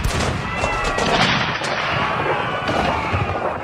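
Battle gunfire sound effect: a dense, continuous barrage of loud overlapping shots and blasts with no pause, crackling throughout.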